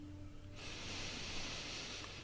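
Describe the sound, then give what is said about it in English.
A deep inhale through the nose, a soft steady airy hiss that begins after a short quiet moment and holds evenly for close to two seconds, quiet and alone. “And simply inhale deeply.”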